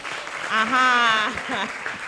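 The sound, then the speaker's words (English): Audience clapping for a contestant at a school spelling competition: steady, dense applause that swells in the middle and then eases, with a voice speaking over it throughout. “You tell me, which of the bags do you like? Just select which one you like. Any of them, eh? Please clap for her.”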